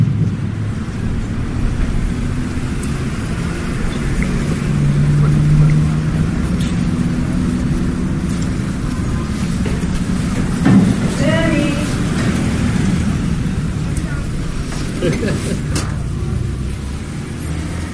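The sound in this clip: A car drives along a road between walls at the checkpoint between Jerusalem and Bethlehem, giving a steady, loud hum of engine and tyre noise that continues throughout.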